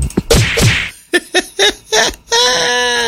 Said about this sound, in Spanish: Unos cocasos para mi papá. Órale, cocaso.